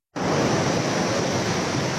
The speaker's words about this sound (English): A torrent of muddy water continues to thrash downstream in Nur Kot.